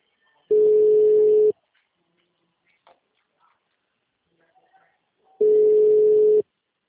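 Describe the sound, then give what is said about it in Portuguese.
Ringback tone while placing a phone call: two long, steady, mid-pitched tones, each about a second, separated by a few seconds of near silence. “Eu tô ligando, não tô nem mandando mensagem.”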